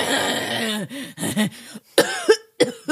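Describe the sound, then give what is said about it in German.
A human voice imitates a woman's cough with a series of short, raspy, voiced coughing bursts in an uneven rhythm, separated by brief pauses, with no other speech. “dann hustet sie ein bisschen”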